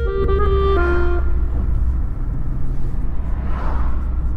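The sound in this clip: An old BMW car drives toward a town centre, its engine giving a steady, loud low rumble throughout.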